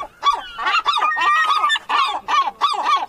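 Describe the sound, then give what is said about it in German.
Seagulls at the coast near Lübeck Travemünde give a run of harsh, honking calls, many in quick succession with brief gaps, loud and alone without any talking. “ich würde jetzt ganz gerne nochmal die Möwen persönlich fragen, was sie von Zoomania 2 halten.”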